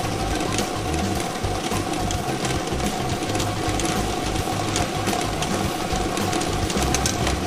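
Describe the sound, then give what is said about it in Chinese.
A lottery drawing machine runs with a dense, continuous mechanical rattle and whir that stays level throughout, with no talk over it. “摇奖机正式启动了，我们共同来关注开奖号码的产生。”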